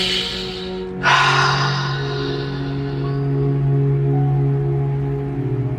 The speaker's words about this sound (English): Take several big breaths in through your nose and out through your mouth, and feel free to sigh.